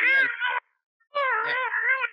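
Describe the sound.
A human voice imitates an angry, frightened cat yowling inside a cat basket. It gives two drawn-out, wavering yowls with a short silent gap between them.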